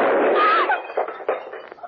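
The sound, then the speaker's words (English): A handgun accidentally firing a live bullet while held near the body: one loud, sharp blast at the very start, then a decaying rumbling tail with a few smaller knocks fading out within two seconds. “You were holding that gun near your body when it exploded.”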